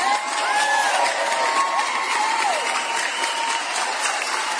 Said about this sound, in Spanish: Claro, aplausos para ellos.